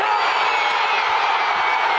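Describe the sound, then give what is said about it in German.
Stadium crowd cheering in Mexico City's Azteca Stadium during the opening match, Mexico against South Africa, with nearly all of its roughly 83,000 seats filled. The roar is loud, dense and continuous, holding a steady level throughout. “Jubel im legendären Aztekenstadion von Mexiko-Stadt.”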